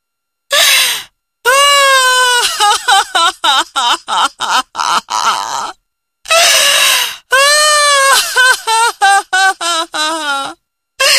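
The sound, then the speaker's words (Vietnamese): A woman cries loudly, with high, strained wailing in two long bursts, each breaking into rapid choppy sobs with short silent gaps between. “bà ta không kìm được liền khóc to lên”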